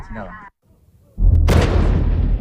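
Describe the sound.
Artillery fire from a gun shooting high-explosive shells in a windy, high-altitude valley. A brief voice and a short hush come before a heavy, loud blast, which sharpens into a bright crack and then rumbles on steadily to the end.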